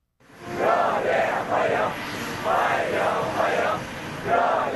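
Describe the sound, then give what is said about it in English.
A crowd of young people in blue shirts and white trousers chants in unison to welcome Vladimir Putin in Beijing, China, with loud, repeated vocal phrases rising and falling in a steady rhythm. “Young people clad in blue shirts and white trousers chanting and waving to welcome the Russian leader for what Chinese media have said is his 25th visit to China.”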